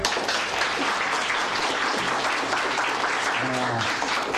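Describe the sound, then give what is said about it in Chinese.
Applause for honoured soldiers: a dense, steady clatter of many hands clapping together, held at an even level from start to finish, with a voice briefly rising through it near the end. “你们就是英雄， 为你们鼓掌。”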